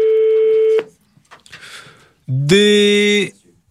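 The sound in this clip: Telephone call tones sound while dialing a landline that never answers. A steady mid-pitched tone gives way to a pause with faint clicks, then a second, louder and buzzier tone that sustains briefly and cuts off.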